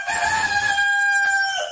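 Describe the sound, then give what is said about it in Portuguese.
A powerful rooster crows as a challenger in a crowing contest, one long, loud, strained cock-a-doodle-doo held as a steady harmonic tone for nearly two seconds, heard alone with no voices over it. “apareceu um galo aí possante pra disputar.”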